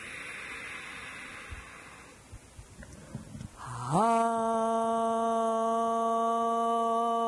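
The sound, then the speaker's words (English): A long, airy deep inhale during a yoga session, followed by a steady, sustained chanted Om held on one low pitch with rich harmonics. “We'll start with the sound of Om. A deep breath in.”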